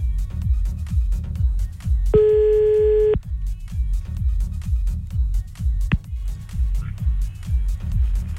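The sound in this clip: A telephone call is placed during a prank phone call: a single steady ring tone lasts about a second over rhythmic background music, with a brief click a few seconds later.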